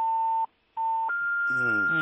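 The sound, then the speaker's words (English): Phone ringing with an incoming call, heard as a steady electronic tone that drops out briefly and returns. It then shifts to a slightly higher held pitch and keeps sounding as a voice talks over it. “I think your phone, there's somebody who's trying to call you”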